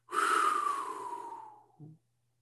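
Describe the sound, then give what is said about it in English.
A person letting all their breath out in one long, forceful exhalation that starts loud and breathy, slowly fades with a slightly falling pitch, and ends in a short, low voiced puff. “Take a deep breath right now and speak. You can speak, right? You got breath. What happens if you let all your air out?”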